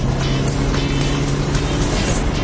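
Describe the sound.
Engine and road noise from a self-driving car moving fast, a loud, steady roar with a low droning hum running unbroken throughout, no voices.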